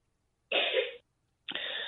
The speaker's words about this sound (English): I just heard someone call. My kid is clearing his morning throat.